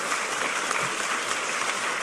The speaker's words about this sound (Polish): Wielkie brawa.